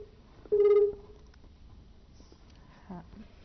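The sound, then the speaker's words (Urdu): A telephone caller's line disconnecting: a brief electronic tone sounds on the line, then only faint, low line hiss with small scattered noises. The whole is quiet. “جی یہ ہمارے ساتھ collar جو تھے وہ disconnect ہو گئے ہیں.”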